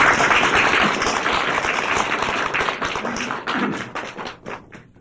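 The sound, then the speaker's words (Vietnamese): Applause from a gathering welcoming people to a new place: dense, loud, steady clapping that thins out and fades toward the end. “Thì bất vụ lợi cũng phải vỗ tay để hoan nghênh cho anh chị tiếp tục một cái chỗ mới thay vì chỗ cũ.”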